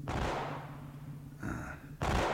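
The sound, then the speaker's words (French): Gunshots ring out as police arrive: a few heavy, booming blasts with broad, rumbling tails, separated by a quieter stretch. “En effet, des coups de feu.”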